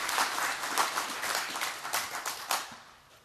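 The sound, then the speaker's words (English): Applause from an audience welcoming a pastor up to teach: steady, dense clapping from many hands that tapers off toward the end. “So Pastor Carmen's going to come up, give him a hand and welcome him and teach on Ephesians chapter 3.”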